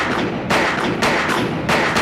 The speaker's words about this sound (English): climbs the University of Texas clock tower and begins spraying bullets at innocent people below.